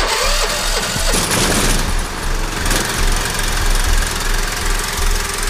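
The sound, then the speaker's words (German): A brand-new petrol generator runs with a loud, steady, knocking engine drone, a rough mid-pitched mechanical chug that holds throughout without pause. “Der Testlauf wird nicht ewig gehen, weil ich natürlich Strom sparen muss. Mein Generator ist zwar brandneu, aber man kommt nicht mehr so einfach an das Benzin dafür.”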